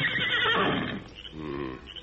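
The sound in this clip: A horse whinnies a second time after pawing the ground, giving a quavering, high cry in the first second that trails off into a lower, softer tone.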